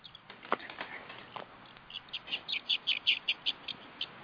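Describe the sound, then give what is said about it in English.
Small birds chirp faintly: a few scattered soft sounds come first, then a quick run of many high, short tweets spaced evenly over the last couple of seconds. “I thought I heard some birds chirping.”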